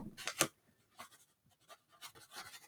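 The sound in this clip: A pen writes on paper, with faint scratchy strokes in a few short bursts and brief pauses between them.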